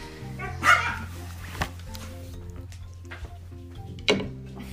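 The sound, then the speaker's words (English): Dogs barking, with a few sharp barks standing out over a steady low hum, the loudest near the start and another near the end, with fainter yips between. “We have some noisy doggies.”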